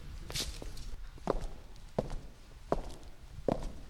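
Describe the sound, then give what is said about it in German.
Footsteps on a walk through an art museum: a slow, even stride with four distinct steps in the latter part, faint over a low background hush. “Auch an ihr gehen wir vorbei bei unserem Spaziergang durch die Bundeskunsthalle.”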